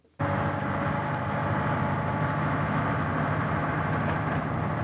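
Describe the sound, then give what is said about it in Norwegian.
Deep, constant rumbling drone of a large, heavy military vehicle moving through a forest area in North Korea. It starts abruptly and holds steady and loud. “Et stort og tungt militært kjøretøy beveger seg gjennom et skogsområde i Nord-Korea.”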